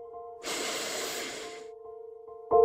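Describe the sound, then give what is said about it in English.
One slow, soft breath during a children's relaxation exercise, an airy hiss lasting about a second over a gentle sustained musical tone, followed by a brighter note at the end. “Now, let's breathe into your face.”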